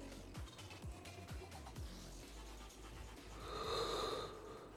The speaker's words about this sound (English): Oh, yawns? Oh, I'm tired.